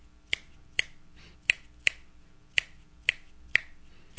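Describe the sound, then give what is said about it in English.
Finger snaps tap out a loose clave rhythm: eight sharp, crisp clicks in an uneven, grouped pattern, heard alone with no voices. “Most jazz musicians until recently had no knowledge or understanding of clave. So what's it sound like? Very loosely this.”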